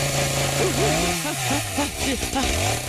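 A chainsaw sound effect: a loud, buzzing engine tone that revs up and down in a series of quick, wavering surges, heard alone for about three seconds.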